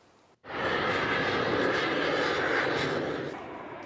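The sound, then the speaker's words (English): Navy flight demonstration jets flying overhead on arrival for Fleet Week in San Francisco: a loud, broad engine roar surges in abruptly after a brief quiet moment, holds steady, then eases slightly near the end. “And we love that sound. The Navy Blue Angels have arrived.”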